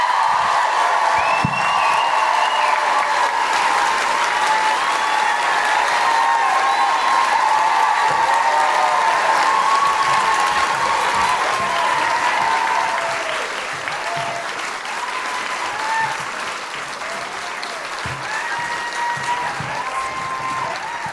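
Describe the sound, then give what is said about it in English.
Loud, dense applause with high whoops and cheers rises from a live feminist comedy show audience in Auckland welcoming a guest onstage. The clapping holds steady, then eases slightly and continues a little quieter to the end. “Put your hands together and make incredible guilty feminists welcoming, woohooing Auckland noises for Ali Moore!”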